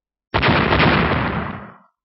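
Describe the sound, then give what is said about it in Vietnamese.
A loud explosion from a blast of yellow thunder-flame striking a mountaintop, sending dust and rock flying. One abrupt, booming burst holds for about a second and a half, then tails off into silence. “Hai tiếng nổ lớn vang vọng, đột nhiên đỉnh núi rung rinh, bụi mù cuồn cuộn, đất đá văng ra tứ phía.”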